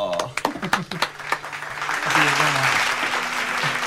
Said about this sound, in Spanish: ¡Aplauso!